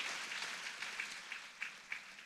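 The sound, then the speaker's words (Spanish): Faint audience applause honoring a woman, a steady wash of many hands clapping with a few slightly louder bursts standing out toward the end. “Aplauso a ella porque...”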